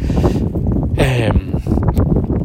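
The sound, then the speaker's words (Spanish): Wind buffeting the microphone on a cold, windy day, a dense low rumbling roar that runs throughout, with a voice briefly rising above it near the middle. “hace un poco de viento y me estoy quedando con los, con los dedos helados.”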